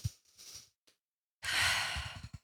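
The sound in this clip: A person takes a deep breath: a soft breathy intake, then a long, loud, airy exhale like a heavy sigh, heard alone with no talking.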